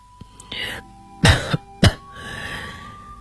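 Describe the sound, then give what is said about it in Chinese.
Two harsh, loud coughs in quick succession from a character in a radio drama, set between quieter breathy stretches. “德里特里便咳嗽了两声，继续说下去”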